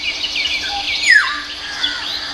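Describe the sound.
Black-hooded oriole calls: thin, high chirps and squeaks, with one sharp downward-slurred whistle near the middle, over a faint steady insect-like buzz, with no voices.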